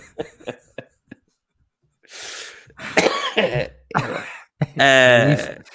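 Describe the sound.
Throat clearing and coughing: a few harsh, rough bursts follow some faint clicks, ending in a longer, raspy voiced clear of the throat.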